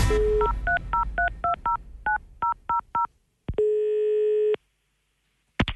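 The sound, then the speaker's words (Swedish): Touch-tone phone dialing for a call: a short steady tone, then a quick run of many keypad beeps, followed by one long sustained tone, a pause, and a brief click at the end. “däremot ringer vi till Fruktombudet”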